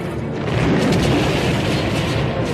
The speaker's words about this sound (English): Another blast starts an ice cave-in and all but buries the frightened C-3PO.